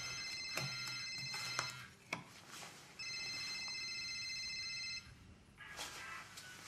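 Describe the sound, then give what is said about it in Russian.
A telephone rings on a bedside table, sounding as a couple of faint bursts of high, trilling electronic tones separated by a short pause, with no talk. “Тумбочка, на которой звонит телефон.”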